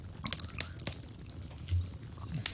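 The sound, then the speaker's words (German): Homemade Earl Grey cookies are chewed, giving faint, scattered crisp crunches and soft mouth clicks against a quiet background. “Und jetzt essen wir doch noch im Podcast. Jetzt frisst er die Plätzchen. Ich muss doch mal kosten.”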